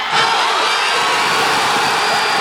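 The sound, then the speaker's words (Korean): Crowd cheering erupts after a come-from-behind winning goal seals a 2-1 victory. A steady, roaring wall of voices holds at an even loudness throughout. “모두가 애타게 기다리던 역전골이 터졌고 2-1 역전승이 확정되는 순간 현장 곳곳에서 환호성이 터져나왔습니다.”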